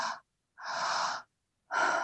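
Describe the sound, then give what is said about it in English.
Slow, breathy exhales during guided breathwork, heard as three soft airy breath sounds with pauses between them. The middle breath is the longest and the quietest sound is the silence around it. “notice, can you just allow that exhale to release, just letting gravity, atmospheric pressure, your muscles, just to release the breath.”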